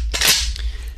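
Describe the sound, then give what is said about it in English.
Gunfire from an Evo AK-47 rifle sound effect: one loud, sharp crack with a short, fainter tail trailing off. “and they had an action like an AK-47, Evo AK-47, they might sound something like this.”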